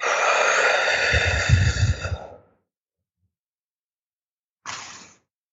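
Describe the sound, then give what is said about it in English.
A forceful exhale from a breathing exercise comes out as a loud, rough rush of air with a low, slapping throb, lasting about two seconds. After a silent pause, a short, softer burst of breath follows. “sometimes it sounds like a slapping action, like it's slapping my stomach. So it's like, so I do this one again. So I'll exhale.”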